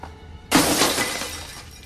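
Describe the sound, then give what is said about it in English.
A shoe smashes a box in one sudden, loud crash with a glassy shatter that rings on and slowly fades. “She uses her shoe to smash the box, which Ashley never reached, and she takes that key too.”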